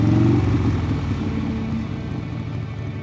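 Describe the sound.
A motorcycle engine rumbles steadily at a low pitch as a rider drops off a passenger after a date, the throaty drone easing slightly louder at first, then settling lower.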